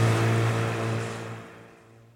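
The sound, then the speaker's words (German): Surf breaking on the sea, heard from a boat, gives a broad rushing wash over a steady low hum that slowly fades away. “Es gibt eine ordentliche Brandung.”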